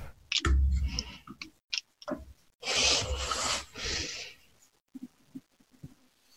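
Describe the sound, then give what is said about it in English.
Crinkly rustling as something is unwrapped, with several bursts of rubbing and crackling of uneven loudness separated by short pauses, then a few faint ticks at the end; no one speaks. “I'll stop unwrapping it.”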